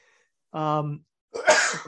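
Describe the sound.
A single human sneeze: a short voiced intake followed, after a brief pause, by a loud, harsh, noisy burst that trails off.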